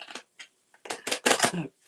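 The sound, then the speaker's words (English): Playing cards being mixed by hand and spread out after a failed shuffle: a few soft, papery brushing and slapping bursts, irregular in rhythm and fairly faint, with short silences between. “I can't shuffle these cards very well. I'm gonna have to like mix them up a little bit differently and just do a spread.”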